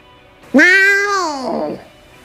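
A cat gives one drawn-out, loud meow that starts abruptly, holds for about a second and then trails off.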